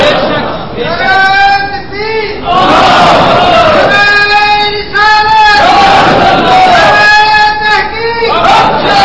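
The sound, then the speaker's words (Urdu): A large crowd chants the Naara-e-Risalat religious slogan in several loud, sustained, tonal phrases, with short pauses between the bursts of massed voices. “ابھی یہ نعرہ رسالت لگا تو آپ نے کہا یا رسول اللہ صلی اللہ علیہ وسلم”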